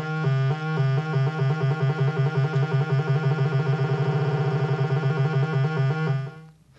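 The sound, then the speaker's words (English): Synthesizer tone modulated by a square wave, flipping rapidly between two pitches as a bright, buzzy trill. It is loud and steady, with no voices, then fades out at the end. “Here's what we call a square wave. It makes the tone sound like a trill.”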